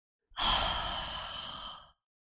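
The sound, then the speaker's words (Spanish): A complete exhale through the mouth, with the tongue held behind the upper front teeth in a breathing exercise: one soft but audible breathy sigh lasting about a second and a half, starting abruptly and slowly tapering off, alone. “Ahora, exhala completamente por la boca, haciendo un sonido suave y audible.”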